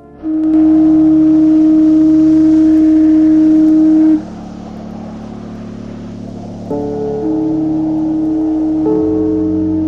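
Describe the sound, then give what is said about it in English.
Foghorns blow from the coast as evening sets in: long, deep, loud blasts. A first sustained tone is followed by further overlapping horns at different pitches that hold steadily to the end. “Foghorns blow from the coast as evening sets in.”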